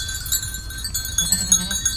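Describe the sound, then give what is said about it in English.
A herd of goats with bells: clanking, tinkling bells over a low murmur of hooves and movement, with a few faint bleats mixed in. “Herd of goats and bells.”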